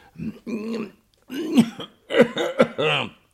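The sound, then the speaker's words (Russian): A voice actor performs a haughty rocket's affected cough in a fairy-tale drama: several short, voiced, throaty bursts in quick succession with brief gaps between them. “Кашлянула она, и все обратились вслух”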